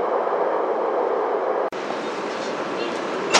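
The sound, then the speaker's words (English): Subway train arriving at Shoujingmao station: a steady, loud rumble of wheels and carriage noise with a momentary dropout midway and a faint squeal near the end. “首经贸站到了。 We are arriving at 首经贸 station.”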